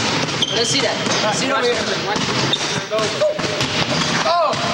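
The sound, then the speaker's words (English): Basketball bounces and thumps echo across a gym floor at practice as a player sinks a hook shot, with several voices calling and shouting over the play. “At basketball practice, the one black player sinks a difficult hook shot.”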